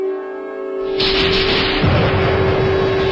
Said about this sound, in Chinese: 辽河下游一片激战，枪炮声、厮杀声不绝于耳，火光冲天。